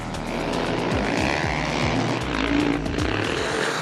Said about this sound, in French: Il n'y a pas que les autos qui tournent sur le circuit de Val Thorens, il y a les motos aussi.